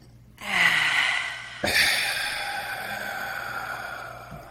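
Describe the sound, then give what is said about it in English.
A deep breath drawn in and then let out: a breathy, airy inhale of about a second, then a longer, steady exhale that slowly fades, with no talking over it. “Let's get some air in there. Let's take a deep breath in.”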